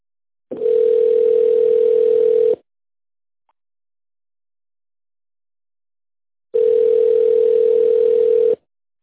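A telephone ringback tone plays while a caller waits for an operator: two long, steady, mid-pitched beeps of about two seconds each, separated by a long silence.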